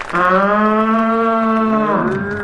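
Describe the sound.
A human voice imitates a wild yak lowing: a single loud, sustained moo-like call on a steady low pitch, ending with a short dip.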